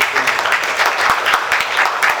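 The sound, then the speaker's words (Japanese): Audience applause welcomes a speaker at a talk: a dense, steady patter of many hands clapping throughout, fairly loud, with no voices heard. “皆さんの拍手を持ってちょっとお迎えしたいと思います。”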